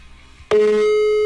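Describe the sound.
A telephone tone heard after dialing a mobile number: a steady, single-pitched electronic tone that begins abruptly and holds loud and unbroken.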